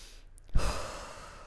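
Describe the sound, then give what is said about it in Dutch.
A single deep breath in and out, heard as a soft, airy rush that swells suddenly and then fades slowly into quiet, with no talking. “Adem even diep in en uit.”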